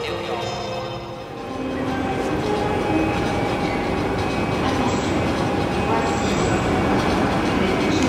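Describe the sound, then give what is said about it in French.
A train arrives at the Gare de Lyon station in Paris on the service from Lyon, rolling in with a steady, heavy rumble and thin, high wheel squeals that hold throughout. “on est à Paris, à la gare de Lyon, et on attend le train en provenance de Lyon justement, avec Didier à l'intérieur”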